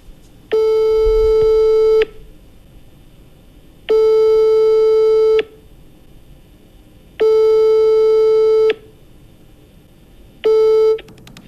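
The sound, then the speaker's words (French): A telephone line tone while a call is placed: loud, steady electronic beeps repeating in an even cycle, four long tones separated by pauses, the last cut short. “on va essayer de le rappeler. Plex, tu peux appeler Roméo s'il te plaît?”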